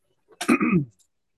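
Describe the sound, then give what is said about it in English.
A person clears their throat once: a short, rough, guttural burst of about half a second, alone, with silence on both sides. “I was just clearing my throat.”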